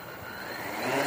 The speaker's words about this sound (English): Now, this is a bit like a helicopter, except it's got six rotors.